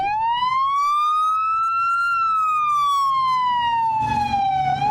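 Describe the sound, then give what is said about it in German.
Houston police car siren wailing as it drives across a square: one loud, slow wail that rises in pitch, then falls back over a few seconds, with faint traffic rumble underneath. “Das denn hier? Houston Police ist das. Fährt hier lang über einen Platz.”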